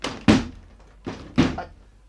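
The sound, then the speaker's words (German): Dull, heavy thuds of someone shoving against a stuck door that will not open: three low impacts, the last two close together, with a rumbling decay after each. “Ich stumpf die Tür ganz einfach mal auf.”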